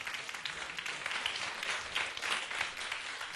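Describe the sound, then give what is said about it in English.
An audience applauds to welcome a final-year music student onto a stage, a faint, steady patter of many hands clapping with small swells throughout. “俾啲掌聲，梁啟新。”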